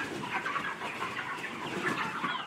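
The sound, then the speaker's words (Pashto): Broiler chickens clucking on a poultry farm holding 15,000 birds in a village of Arghandab district, Kandahar: a faint, steady chorus of many overlapping clucks and soft chirps from the flock. “د کندهار د ارغنداب ولسوالۍ د میانجوی کلی د چرګانو دی فارم کې دا مهال 15000 غوښین چرګان تر روزنې لاندې دي”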